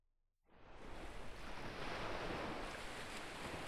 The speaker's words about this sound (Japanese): 海の音。波が、砂浜に打ち寄せて、引いていく。